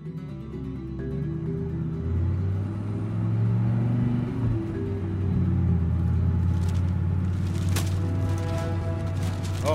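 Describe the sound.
A car driving down a road: a steady, low engine rumble with a constant hum whose pitch shifts slightly as it goes. No voices are heard over it.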